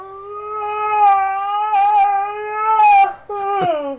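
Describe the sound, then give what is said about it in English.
A dog yawns with a drawn-out whining squeal, a steady high-pitched harmonic tone held for about three seconds, then breaking off and returning briefly with a wavering, quivering end. “I don't know if that's real, or a man's best friend. That's a dog.”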